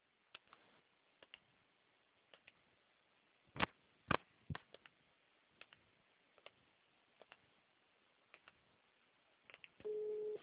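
Telephone line tone while a call is transferred: a narrow, phone-quality line with sparse clicks and ticks, then a steady, level tone that starts near the end.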